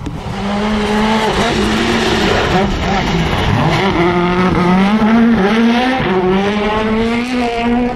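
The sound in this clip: A race car engine roars loud and continuous through a chicane, its pitch wavering up and down between the turns, with a light skittering of tyres.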